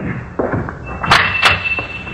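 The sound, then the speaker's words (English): A door opens with a few dull clunks followed by two sharp rattling latch clicks, over a steady high whine. “open the door like before”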